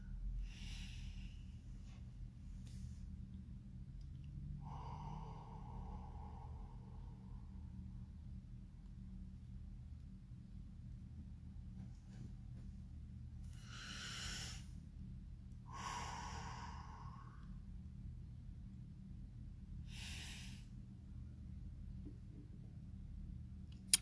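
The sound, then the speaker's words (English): Deep breaths drawn in, a few quiet, airy inhalations with a slightly snorting nasal edge, spaced apart by long pauses over a low steady background hum. “Just gonna take a moment to just breathe in.”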